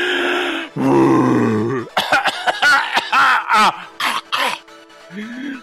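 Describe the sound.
A voice imitates the big bad wolf in an asthma attack, with loud, drawn-out wheezing groans, then a rapid string of raspy, choppy coughs and gasps.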